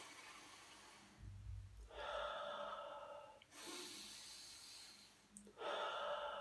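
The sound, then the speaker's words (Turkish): Slow, deliberate breathing from a calming breathing exercise for panic attacks, drawn in through the nose and let out through the mouth. A few long, airy breaths follow one another without pauses. “3'e 4'e kadar sayarak burnunuzdan hava alacak, birkaç saniye bekletecek ve de o nefesi ağzınızdan vereceksiniz. Aynen şöyle.”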